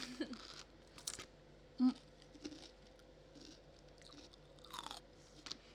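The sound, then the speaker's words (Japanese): Biting and chewing a whole raw cucumber, several soft, crisp crunches at irregular intervals, faint overall and without talk. “でもなんかもっとキュウリの音がする時がある。やっぱあの丸かじりが一番呼吸っていい音するね。”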